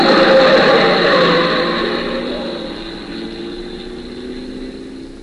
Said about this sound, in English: The lights are dim, the corner's sharp, a car's coming fast, it turns. You don't see it.